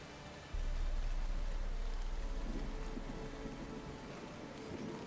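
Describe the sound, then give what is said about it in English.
Steady rain falling, a dense even hiss with a low rumble underneath. It starts abruptly and then continues at a constant level with no voices. “Is it still raining? Yes. Picking up, really staying the same? It's beginning to pick up.”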